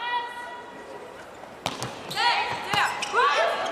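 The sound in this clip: Ball strikes during a serve by the Italian team in a women's volleyball match: a few sharp thuds and slaps land in the second half, following a quieter opening with steady background noise.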